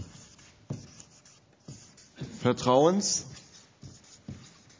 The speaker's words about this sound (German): Also das erste Rahmenelement, was ich hier sehe, ist vertrauenswürdig. Ich schreibe das jetzt mal hier hin.